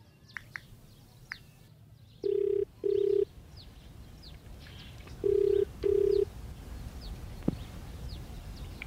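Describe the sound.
A telephone rings out on the line as a call is placed, with two double-pulse rings separated by a pause. Faint birds chirp throughout in the background.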